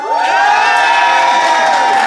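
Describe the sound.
An assembled audience at a debate cheers and whoops in a vote by acclaim. The sustained, loud roar of voices carries a few claps beneath it.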